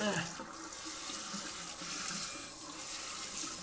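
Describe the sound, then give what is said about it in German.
Water runs steadily from a tap while a basin is rinsed of leftover foam, a continuous splashing hiss with small shifts in flow throughout. “jetzt spülen wir hier aus.”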